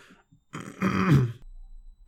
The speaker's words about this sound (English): He cleared his throat and spoke again, his voice quiet.